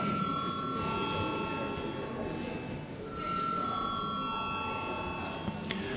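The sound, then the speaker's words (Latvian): A parliament chamber's electric bell rings steadily to call members to a vote, a sustained bright tone in two long stretches over a constant murmur of voices. “Lūdzu zvanu.”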